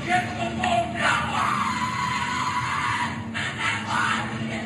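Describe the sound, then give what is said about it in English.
Shouting and screaming at a secret society initiation ceremony: a steady, loud, dense wash of many raised voices that runs unbroken through the whole stretch, with no single voice standing clear. “What you're hearing is the first recording ever made of the Skull and Bones initiation ceremony.”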